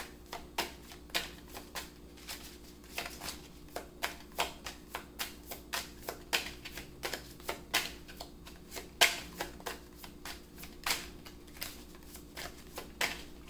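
Tarot cards shuffled by hand make many soft, crisp slaps and riffling taps in an uneven, steady rhythm. The sound is fairly quiet, with no talking.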